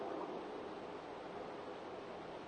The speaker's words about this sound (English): And then you hear him swimming towards you.